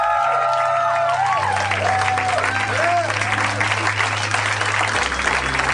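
Audience applause for the dungeon master of a tabletop role-playing game: dense, continuous clapping that stays loud from start to finish, with whoop-like cheers rising and falling in the first half.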